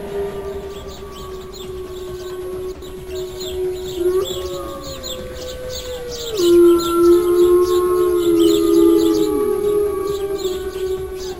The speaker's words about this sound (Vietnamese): Cương Nhật Phổ Bạc hạ quyết tâm, đưa chiếc sáo xương lên miệng, vận hết sức lực toàn thân, thổi mạnh lên một tiếng.